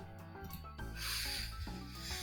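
Someone sniffs deeply through the nose, a breathy hissing inhale that swells and lasts over a second, following a few quieter rustles, over a faint tonal background.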